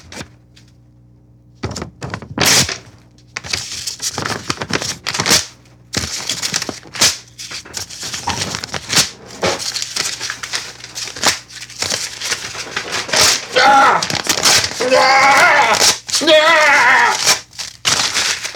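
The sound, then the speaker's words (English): Paper is ripped up and crumpled by hand in many irregular tearing and crinkling bursts, sharp and close, separated by short pauses and growing denser and louder toward the end. “That was me ripping up papers that said I have to go be a slave.”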